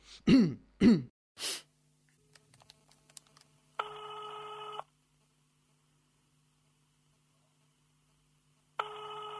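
A telephone call being placed: someone clears their throat a few times, a few faint clicks follow, and then two long, steady electronic ringing tones sound with a pause between them. No talk is heard.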